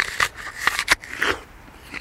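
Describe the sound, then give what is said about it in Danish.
Crisp crunches of teeth biting into a red summer apple, a few short, sharp bites separated by brief pauses, fairly faint and with no talk. “Jeg prøver lige at tage en bid af den her,”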